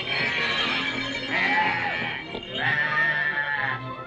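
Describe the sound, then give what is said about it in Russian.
A herd of livestock being driven through a gate by a shepherd: drawn-out, overlapping animal cries rise and fall in pitch over a steady background of shuffling noise. “Пастух тем временем гонит свое стадо через ворота.”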